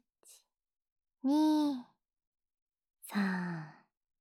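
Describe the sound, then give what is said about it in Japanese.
Slow, deep breaths drawn in through the nose during a guided breathing exercise: a faint brief one, then two longer, voiced, sigh-like breaths, each lasting well under a second. “ゆっくりたくさん鼻で吸ってー。”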